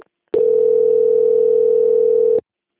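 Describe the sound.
A single steady telephone tone during a call transfer, one unbroken mid-pitched beep lasting about two seconds, sounding alone without any voices.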